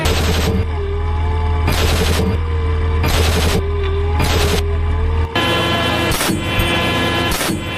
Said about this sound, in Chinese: 防火榴弹第一次射击执行。